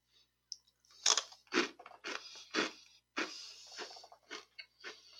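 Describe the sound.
Chewing of a crunchy baked cheddar cheese keto snack, cooked crisp like griddled cheese: many sharp, crackly crunches in an uneven rhythm, fairly loud and close, with no talking.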